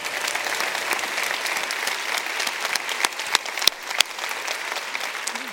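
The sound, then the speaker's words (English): Audience applause fills a church service: dense, steady clapping from a large crowd holds evenly throughout, with a few sharper claps standing out. “We want to say hello to everybody in all our campuses and everybody watching online. Let's give them a big hand out there.”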